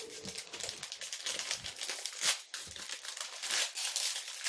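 Crinkling of a licorice package being torn open, a continuous crackly rustle of plastic with a few louder crunches, lasting the whole stretch with no talk.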